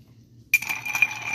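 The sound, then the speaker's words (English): A spoon stirs a whiskey cocktail in a glass. After a brief quiet start, a bright, continuous clinking and scraping of metal against glass runs for about a second at moderate loudness, with no voices. “We're not shaking our whiskey. We're basically stirring it so that we get it cold.”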